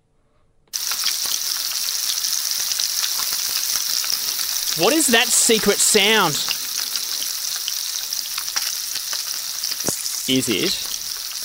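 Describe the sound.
Food frying in a pan: a steady, loud sizzle and crackle runs almost from the start, with stirring noises, and people briefly talk over it.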